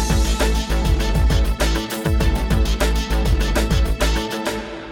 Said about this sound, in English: right after producer Pete presses play on the jingle machine, we can hear, we hope, from the long-awaited Dr.